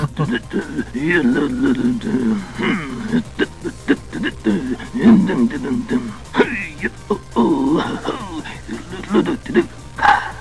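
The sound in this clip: Watto, the winged junk-dealer alien from a Star Wars video game, hums a bouncy tune in a gravelly, nasal character voice, with wavering hummed phrases and short breaks between them.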